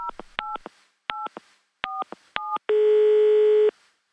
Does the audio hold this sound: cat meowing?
no

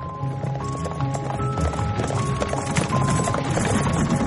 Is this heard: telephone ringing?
no

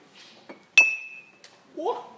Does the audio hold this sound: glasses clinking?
yes

